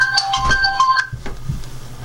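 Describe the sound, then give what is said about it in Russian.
A phone ringtone for an incoming call plays as a short melodic run of bright, stepped beeping tones for about a second, then stops, leaving only a faint low hum and light background noise. “она еще раз будет сейчас перезванивать”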